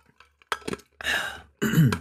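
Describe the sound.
Throat clearing from a dry throat: a couple of brief clicks, then two longer, rough, guttural rasps, fairly loud, with no words spoken.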